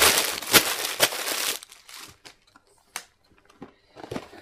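Crinkling and rustling of newspaper as a carefully wrapped parcel is unwrapped: a dense, continuous crackle at first, then scattered softer rustles and a few sharp, isolated crinkles with quiet gaps between.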